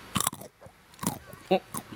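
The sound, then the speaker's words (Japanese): Crunching and chewing on a cheese-flavoured almond snack, with a few short, crisp bursts of bite and crunch separated by quieter chewing. “今あのアーモンド食べましたけども、 はいはい、 アーモンドを噛めば噛むほど、うん、チーズの香りが口の中に広がって美味しい。”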